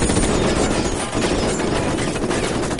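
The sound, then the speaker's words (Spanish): Rapid gunfire as a sniper riddles a car in an action thriller film, a dense, unbroken barrage of overlapping shots that fills the whole stretch. “El francotirador carga y acribilla el vehículo.”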